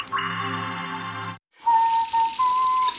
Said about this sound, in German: Darum danke. Für mindestens 20 Sekunden Hände waschen. Jetzt noch zwischen den Fingern.